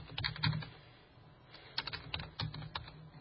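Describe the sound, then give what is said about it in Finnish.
Typing on a computer keyboard while writing a message in a private chat window: quiet, irregular clusters of clicking keystrokes with a brief lull in the middle, then another run of keys, with no voices. “ja nyt kun me kirjoitan tänne”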